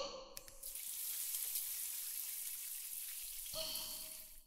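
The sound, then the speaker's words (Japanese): Water runs steadily over hair as it is rinsed during a shampoo, giving a soft, even, rain-like hiss that lasts about three seconds before stopping abruptly. “それじゃあまずは頭をお流ししましょうね。”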